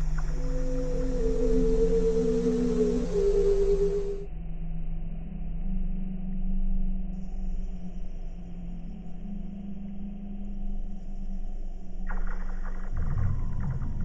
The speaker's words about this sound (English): Things like Weddell seals. You can just put your ear to the ice.